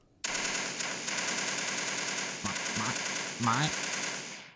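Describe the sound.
A voice imitating machine gun fire during playacted shooting, a loud, continuous rattling burst that runs for about four seconds with a few throaty, lower-pitched breaks near the end.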